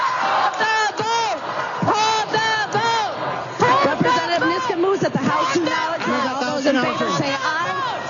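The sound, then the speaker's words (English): Loud protest shouts from many legislators in a state House chamber, overlapping raised voices and cries rising and falling in a continuous uproar throughout. “Republican Speaker Lisa Daymuth gabbled out over the loud protests of Democrats.”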